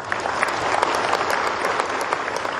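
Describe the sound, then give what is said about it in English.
An audience applauds honorees at an awards event with thick, continuous clapping that stays at an even, fairly loud level throughout, with no speech over it. “Give these honorees a good round of applause.”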